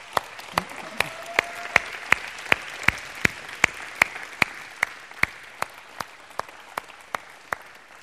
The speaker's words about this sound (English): Well, you welcome Ashton up here. Give him a hand.